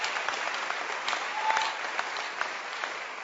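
A church audience clapping their hands, a dense, steady patter of many claps that continues evenly throughout at a fairly soft level.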